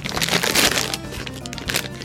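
Crunching of thick-cut potato chips being bitten and chewed, a run of sharp, crackly crunches that are loud at first and then lighter and scattered, with no talking.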